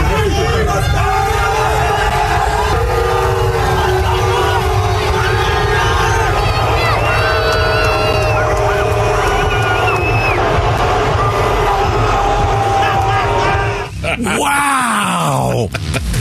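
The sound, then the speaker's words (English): A Seattle stadium crowd at a football game roars and groans as quarterback Russell Wilson takes the field. The loud, sustained drone of many voices is dense and steady, then cuts off abruptly near the end. “here's what it sounded like a few moments ago when Russell Wilson took the field in Seattle.”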